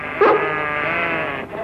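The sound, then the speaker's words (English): A sheep being driven by its herder gives one drawn-out, wavering bleat with a strong nasal tone, loud at its onset and held steadily to the end without a break. “I was driving my sheep and she started chasing them.”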